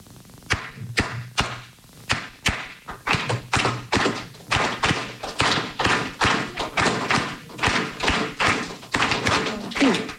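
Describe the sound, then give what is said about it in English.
A Cuban clave rhythm tapped out as many dry, knocking strikes in a repeating syncopated pattern, steady in tempo and fairly loud, with no voices. “It has this beautiful thing called clave. It sounds like this.”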